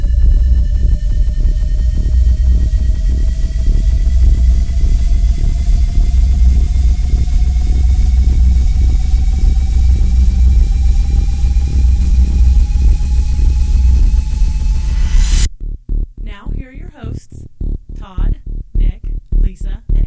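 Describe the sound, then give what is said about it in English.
A sci-fi jump drive activates as a loud, steady rumbling drone with a pulsing texture and faint tones that slowly climb in pitch for about fifteen seconds. It cuts off abruptly, and a person starts talking. “Photonic crystal resonance at 7.2 terahertz. Refractive index reduced to 0.0216. Activating jump drive.”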